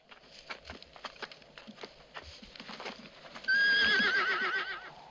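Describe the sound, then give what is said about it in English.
A horse's hooves clop faintly in a loose rhythm as it is pulled up. Then a loud, wavering whinny cuts in and carries on to the end, with its pitch shaking up and down. “He pulls the horse up and the family climb over a stile in a wall to the house.”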